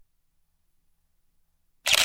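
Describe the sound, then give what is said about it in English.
A camera shutter closes at the end of a long night-sky exposure: after near silence, one short, sharp clack lands right at the close. “The shutter closes.”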